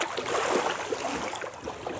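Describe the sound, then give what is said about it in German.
Water sloshes and splashes as a seal slips into the water, a soft, continuous churning with a few small splashes. “Endlich mal ein Seehund, der freiwillig ins Wasser geht.”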